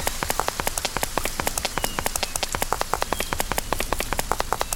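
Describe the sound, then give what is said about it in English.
Rain falls in a video game as a dense, steady patter of many sharp drop ticks on a surface, evenly spread and continuous throughout, with no voices. “Oh, because the rain's going away.”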